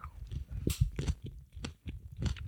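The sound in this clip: Crunchy chewing of a caper set as the eye of a vegan mett hedgehog, with many soft, uneven bites and moist crunches, faint and with no voices.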